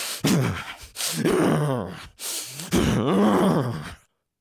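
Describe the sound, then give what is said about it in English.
A person demonstrates stressed breathing with a few heavy, strained breaths. Each is loud and rough with a groaning, voiced edge, and they follow one another with only brief gaps. “When we're in a state of stress, our breath responds accordingly. For most people, it sounds like this.”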